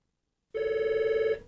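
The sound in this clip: A telephone rings with an incoming call to a radio phone-in contest line: a single steady electronic ring about a second long, with a fast warbling pulse, sounding alone before cutting off.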